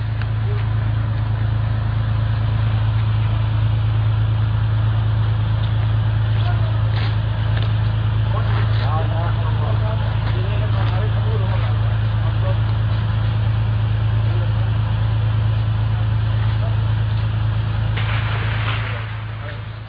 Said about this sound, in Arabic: إذن هذه هي دبابات الجيش النظامي المجرم في باب سباع في حمص الأبية